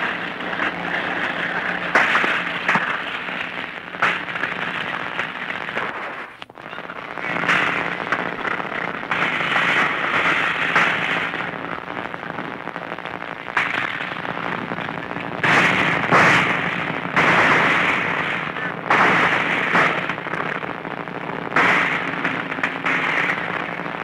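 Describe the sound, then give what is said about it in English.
Bazooka fire during a battle, with tanks moving into position, comes through as a few sharp cracking reports scattered over a constant, dense, crackling roar that fills the whole stretch. “Another bazooka let loose.”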